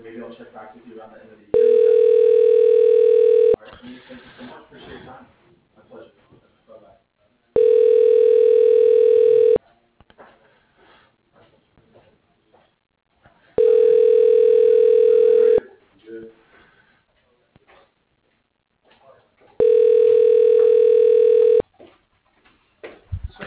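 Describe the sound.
A telephone tone sounds during a call to a company employee directory extension: four long, steady, loud beeps of about two seconds each at even intervals, with a voice talking in the gaps between them.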